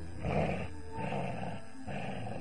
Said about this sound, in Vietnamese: Trước mặt bốn đứa là con chó quái vật với tấm thân khổng lồ lấp hết khoảng không từ sàn tới trần. Nó có 3 đầu, 6 con mắt,